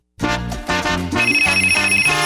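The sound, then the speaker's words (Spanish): Telephone ringing as a bright electronic ringtone: after a short silence, a loud series of quick, repeating melodic tones with a shifting note pattern. “Siempre tempranito, ring, ring, óyelo sonando. Ring, ring.”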